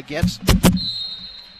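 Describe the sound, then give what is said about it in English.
A basketball knocked away on an inbound pass strikes Comrex broadcast equipment, two sharp, loud thuds in quick succession after a brief voice, followed by a thin high tone that lingers. “And the ball, inbound pass was knocked away, and it actually hits a little part of my Comrex equipment, but I don't think anything's broken.”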